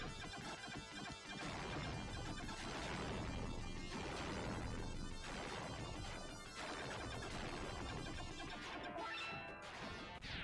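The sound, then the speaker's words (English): Crunchy, harsh crashing noise from a burning plane going down in a video game on the Genesis console: a dense, distorted roar that stays loud and steady throughout, with no talking. “Your plane is on fire and then crashes.”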